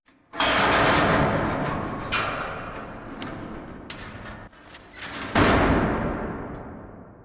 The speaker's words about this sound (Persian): در اصلی با صدای مهیبی باز شد.